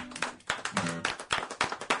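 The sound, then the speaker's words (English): Hand clapping from a group applauding a song, heard as a steady series of many sharp, evenly spaced claps with no talk over them. “we can all clap for this one”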